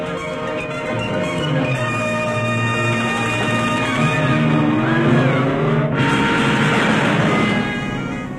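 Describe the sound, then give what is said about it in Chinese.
A car driving off fast: a loud, sustained engine roar that climbs in pitch as it accelerates, with a whining tire squeal partway through, continuous for about eight seconds with no voices. “快开车，你认识路。”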